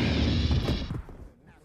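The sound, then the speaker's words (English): A Star Wars blaster shot rings out as a loud, buzzing burst that holds for under a second, then fades quickly into quiet. “Rest in peace, Greedo. I can shoot just as well under a table as across one.”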